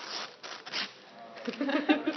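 Crinkly paper or plastic rustling and tearing as a small package is unwrapped, coming in a few uneven bursts that grow busier toward the end.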